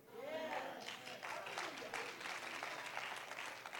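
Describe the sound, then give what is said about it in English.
A faint, light golf clap rises from a church audience during a sermon. Sparse claps patter on through the whole stretch, and a voice is heard briefly at the start. “I got a golf clap, but it's going to be all right.”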